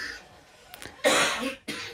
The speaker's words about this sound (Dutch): Sorry mensen, het is heel vervelend als het nu net. Ja, hoesten. Als het opkomt kun je het niet onderdrukken.